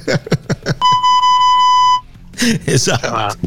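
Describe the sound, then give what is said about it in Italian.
Censorship bleep sound effect, a single steady high-pitched tone lasting just over a second, set between stretches of lively talk. “Aspetta, non ho caricato il bip delle bestemmie.”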